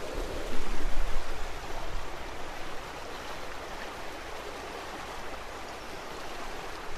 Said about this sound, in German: Die Selbitz. Ein Naturereignis in Bild und Ton. Nein, nur in Ton für euch. Da. Da plätschert sie.